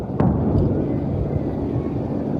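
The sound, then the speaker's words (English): Deep, steady roar of a helicopter used to set off planned avalanches with explosives in Alaska, a continuous low rumble that holds level throughout without breaks. “They use helicopters like this one to set off planned avalanches using explosives.”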